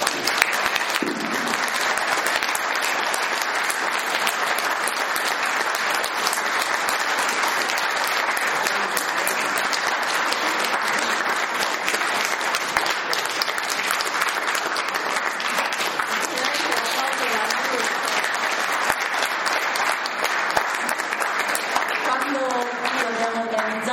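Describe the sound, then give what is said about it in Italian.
Audience applause for a guest at a talk on medicine: dense, steady clapping from a crowd that holds an even level for the full length, with a voice coming in near the end. “E siccome è qui con noi, io vi pregherei di farle un applauso.”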